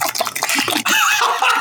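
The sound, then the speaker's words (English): Macaroni and cheese being stirred makes close, wet squelching and sloshing sounds, a continuous sticky churn with a brief pause partway through. “And for the listeners at home, here is some ASMR of the macaroni.”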